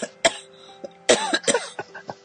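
Coughing comes in a few sharp, harsh bursts separated by short pauses, with softer throaty catches between them. No speech is heard.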